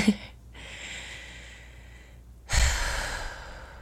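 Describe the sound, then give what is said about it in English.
A slow deep breath: a long, airy inhale of about two seconds, then, after a brief pause, a louder, rushing exhale. “let's take another deep breath, or I'm going to.”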